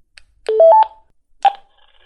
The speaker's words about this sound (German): Dann die Nummer eingeben. 2, 6, 4, 0, 2. Oben links bestätigen.